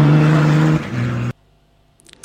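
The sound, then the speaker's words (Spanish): Engine of a Mitsubishi rally car at the Dakar Rally gives a loud, steady droning tone that drops to a lower pitch partway through, then cuts off abruptly into near silence. “Ese era su Mitsubishi en el Dakar.”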